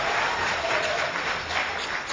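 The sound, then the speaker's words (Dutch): An audience applauds to welcome a municipal alderman standing in as chairman of a school contest meeting: a thick, steady burst of many hands clapping, fairly loud and unbroken. “Applausje mag wel, want hij is er zomaar ingevallen.”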